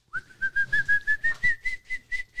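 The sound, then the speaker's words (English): A bird-like whistled song of a small brown bird: about a dozen short, clear notes in a steady rhythm, each pitched slightly higher than the last, heard alone. “They whistle, as they sing, it goes up each goes up the scale and up the octave scale.”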